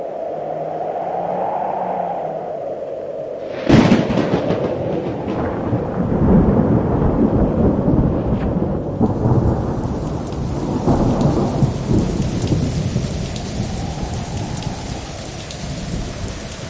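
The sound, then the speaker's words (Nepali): Heavy rain pours in a steady, dense hiss. A sharp, loud thunderclap breaks in a few seconds in, and rumbling carries on beneath the downpour. “अनि पानी पर्न सुरु भयो।”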